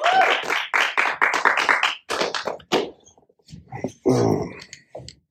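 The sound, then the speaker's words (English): Audience clapping for a Gandalf cosplayer at a fan expo: a dense burst of applause for about two seconds, then trailing off into scattered knocks and a brief voice. “Everybody, let's give a hand to Gandalf.”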